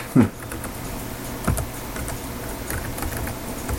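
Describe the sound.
Keystrokes on a computer keyboard as the passwd command is typed: scattered quiet clicks with a couple of louder presses, irregularly spaced, with no voices.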